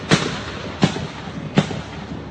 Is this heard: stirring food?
no